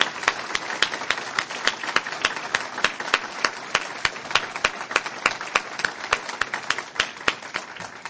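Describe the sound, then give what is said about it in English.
An audience applauds the U.S. Ambassador to China with steady, crisp clapping that continues for about eight seconds at an even level. “Yes, please, let's give the ambassador a round.”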